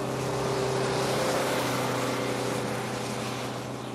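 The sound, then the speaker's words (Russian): Steady engine drone of a bus driving along a wide four-lane road that curves around a hill, a constant low hum with a smooth rumble and no voices. “Автобус едет по огибающей холм широкой четырехполосной дороги.”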